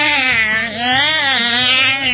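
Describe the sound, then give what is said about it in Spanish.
A human voice imitates cats fighting and yowling in heat: one loud, continuous, baby-like wail whose pitch wavers up and down, dipping briefly twice. “vieron que todos los gatos estaban en una riña, esas riñas que se provocan cuando están en celo, que además gritan como bebitos algunos.”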